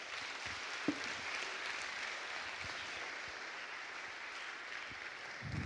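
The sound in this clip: An evening audience applauds warmly to welcome a speaker to the stage. The clapping is soft and sustained, steady from start to finish, with one sharper knock early on.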